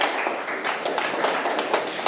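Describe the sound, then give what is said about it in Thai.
Classroom students clapping for a classmate's correct answer: many sharp hand claps in a loose, uneven run at moderate loudness. “ปรบมือให้สรวิทย์ด้วยครับ”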